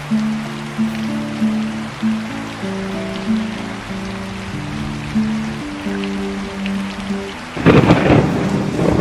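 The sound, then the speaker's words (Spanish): Rain drumming on rooftops during an electrical storm, a steady hiss beneath slow melodic music, until a loud crack of thunder bursts in near the end. “La lluvia no para de sonar en los tejados.”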